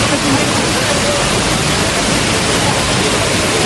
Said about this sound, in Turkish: Sel hem kuryeleri hem de ekmek teknelerine hedef aldı. Azgın sular motosikletleri birer birer sürükledi.